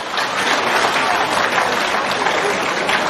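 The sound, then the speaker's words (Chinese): Dense, steady applause from a large crowd at an international Buddhist gathering, honouring a spiritual teacher. The clapping stays loud and even throughout, with no break. “我们再一次用最热烈的掌声感恩大慈大悲的卢军宏台长”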